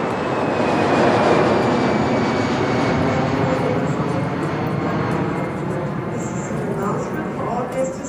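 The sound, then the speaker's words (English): A broad, loud roar of aircraft engines fills an airport scene, steady throughout, with a faint whining tone and indistinct voices beneath it. “Dead Zone 1, J. Stillwater International Airport.”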